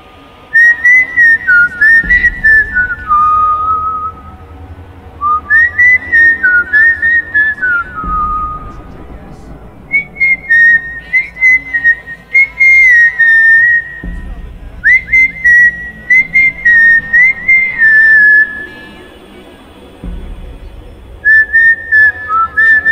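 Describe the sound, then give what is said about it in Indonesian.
A person whistles along to a favourite song playing softly on the radio inside a house. Clear, high melodic phrases come in several bursts with short pauses, over faint low music. “Spontan aku pun bersiul mengikuti lagu.”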